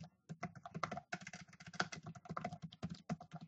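Faint, rapid keystrokes on a computer keyboard as code is typed, many uneven clicks in quick bursts with short pauses.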